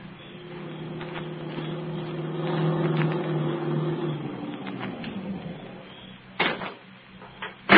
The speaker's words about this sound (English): Wait a minute. What was that noise? It sounded like one of the tires went flat.